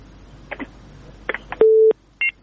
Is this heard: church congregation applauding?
no